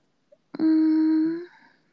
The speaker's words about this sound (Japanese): ね、鳥の声みたーい。鳩かな？